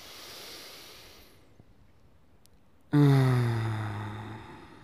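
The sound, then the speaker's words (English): A deep breath: an airy, breathy inhale fades into a short pause, then a loud voiced exhale like a sigh follows, its low hum sliding slightly downward as it slowly trails off. “Let us together take a deep breath.”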